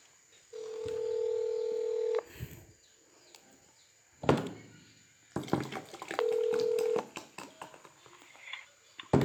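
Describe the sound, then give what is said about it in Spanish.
Telephone tones sound as someone dials to return a call: a long steady tone of nearly two seconds, then a shorter matching tone later, with faint clicks and scattered noise between them and no voices. “Ahorita, ahorita le voy a devolver la llamada a ver qué anda.”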